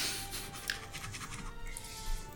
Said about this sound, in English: I'm writing it down.